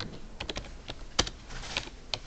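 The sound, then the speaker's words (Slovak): A password being typed on a computer keyboard: many quick, irregular keystroke clicks, quiet, with no one talking. “Teraz otvoríme si textový editor, napíšem skúšobne pár slov. Teraz napíšem heslo.”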